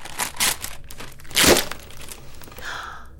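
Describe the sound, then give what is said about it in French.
A Christmas present, a globe, is unwrapped: crinkling, rustling paper comes in bursts, with one loud tearing rip in the middle, then softer crinkles. “j'aimerais vraiment t'offrir mon cadeau. Oui, mon premier cadeau de Noël. Je vais l'ouvrir pour toi.”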